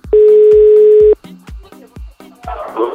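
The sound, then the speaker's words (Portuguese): A telephone dial tone while dialing to place a call, one loud steady tone lasting about a second, followed by quieter, shorter tones and soft noise. “Vamos ligar pro Erickson.”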